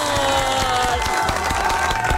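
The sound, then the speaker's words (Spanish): Loud, dense audience applause mixed with cheering as a host asks for another round for listeners, a continuous crowd roar with sharp claps running through it. “Por favor, otro aplauso para mis oyentes, por favor.”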